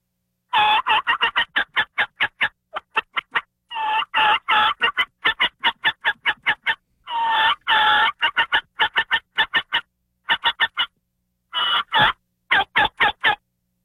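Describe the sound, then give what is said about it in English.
Turkey calling with flock sounds and yelps: many rapid, sharp clucking yelps in quick runs. The bursts are separated by short pauses, and the notes are loud and strongly rhythmic. “I'm on an acorn flat or I'm on a ridge and I'm just blind calling, then I'm going to do the flock sounds and I'm going to do yelps. I'm going to do something like this.”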